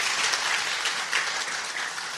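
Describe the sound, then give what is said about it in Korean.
Applause from a church audience welcoming a visiting missionary, a dense, steady clatter of many clapping hands that stays loud and even throughout, with no talk over it. “박수 해 주세요.”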